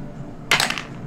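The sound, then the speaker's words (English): Dice rattle briefly on a table as an extra die is rolled with advantage for an intimidation check in a role-playing game. A single short clatter lasts under half a second over faint background noise. “Yeah, with advantage. So roll one more dice.”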